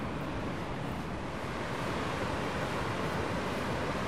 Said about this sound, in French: de l'eau qui coule assez abondamment. Et c'est très calme, il n'y a plus le bruit des voitures, il n'y a plus que ce fond de l'eau.